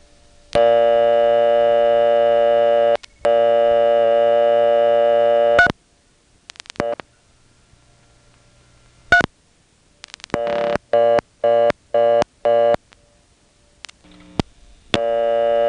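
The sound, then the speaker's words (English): An old telephone exchange with selectors gives a reorder tone after a digit is dialed, because the level is busied out. Two long, steady, buzzy tones come first, then scattered switching clicks, then a run of short, rapid tone bursts. “then I dialed 3 again, and that one went over to the reorder because the level is busied out”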